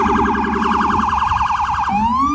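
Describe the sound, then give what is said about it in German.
Loud police and emergency vehicle sirens in New York City: a rapid warbling yelp that switches near the end to a slower wail rising in pitch. “Die Sirenen der Polizei und Rettungsfahrzeuge erträgt nur, wer sich die Ohren zuhält.”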